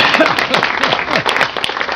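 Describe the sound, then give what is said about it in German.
Applause for a Swiss motorcycle racing team, a lively patter of clapping with a voice talking over it. “Applaus für das Schweizer Team, natürlich.”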